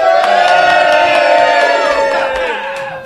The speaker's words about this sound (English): And this is the live studio audience. Hello, audience.